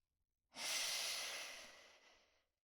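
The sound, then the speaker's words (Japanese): A single deep breath is drawn in as a long, soft, airy hiss that starts abruptly and slowly fades away over about two seconds, with no voices. “だからもう一度深呼吸、順番に体を慣らしていきましょう。ほら、息を吸って、”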